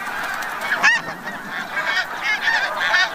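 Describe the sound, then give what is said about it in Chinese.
Snow geese call at their Arctic breeding ground in a steady chorus of many overlapping nasal honks. The honking goes on without a break at an even, moderate loudness. “返回了北极圈，回到了他们阔别已久的繁殖地。雪雁一生只忠于一个伴侣，每对雪雁到达之后就必须立刻占据一块筑巢地。”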